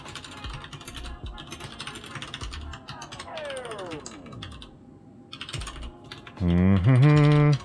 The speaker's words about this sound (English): Sorry about the typing. Taking care of office business.